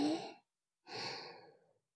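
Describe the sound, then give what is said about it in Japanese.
Slow, deep breathing: a soft voiced intake fades out, then after a short pause a longer, airy breath swells and tapers away, calm and unhurried with no talking. “ゆっくり深呼吸してみようか。吸って、”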